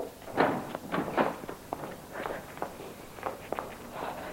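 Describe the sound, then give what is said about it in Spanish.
Someone hurriedly leaves through a metal corridor gate, heard as a run of many irregular footsteps with a few knocking clanks, moderately loud, with no voices. “La reja del corredor se abre a su paso. Sale al exterior.”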